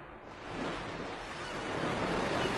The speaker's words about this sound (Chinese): 大海。如果有天，这美好的声音全部消失。